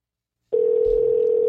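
A telephone tone sounds while a call goes through to leave a voicemail. A steady, unbroken mid-pitched hum starts abruptly after half a second of silence and holds at an even level to the end.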